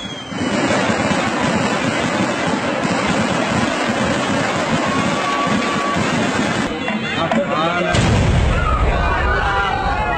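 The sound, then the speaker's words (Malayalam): Fireworks going off at an outdoor display, a dense, continuous roar of overlapping bangs and crackles that stays loud throughout, with a heavier, deeper boom near the end. “വെടിക്കെട്ട് തുടങ്ങിയല്ലോ. വാ വാ നമുക്കും വെടിക്കെട്ട് കാണാൻ പോവാ.”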